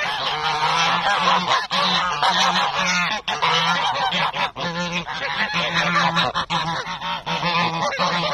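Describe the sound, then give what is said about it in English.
Loud, dense honking from a flock of fifty geese running up together at a park, overlapping nasal calls continuing without a break from start to finish. “What you heard there was the aforementioned 50 geese running up towards me to say hello when I arrived at the park.”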